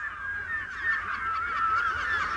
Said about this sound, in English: I think I should cover up my sandwiches because the seagulls are going to eat them.